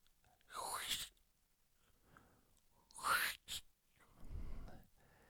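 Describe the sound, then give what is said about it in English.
A voice imitates the crunch of biting into a crispy pizza slice: a few short, breathy, hissing bursts with quiet gaps between them, whispery rather than spoken. “Admittedly, it sounds like an ant sneezing, but it was my attempt at an impression of a pizza, a crunchy pizza,”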